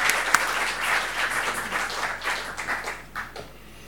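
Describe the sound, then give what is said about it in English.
Audience applause welcoming the Consul General of Iran in Hong Kong and Macau, a dense patter of many clapping hands that gradually thins and softens toward the end. “As Consul General of the Islamic Republic of Iran in Hong Kong and Macau, everyone, please give a warm welcome to Dr. Mehdi Fakhari.”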